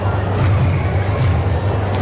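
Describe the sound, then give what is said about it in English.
A sold-out baseball crowd roars after a game-tying home run, a broad steady crowd noise with a low rumble underneath that keeps an even level from start to finish. “Sold-out crowd got a little juice to it now after the Kemp homer ties the game.”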